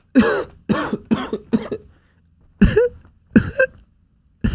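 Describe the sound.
Harsh throat clearing and coughing comes in a burst of four quick rasps, then a pause, followed by a few more separate hacks, each one loud and clipped with silence between them.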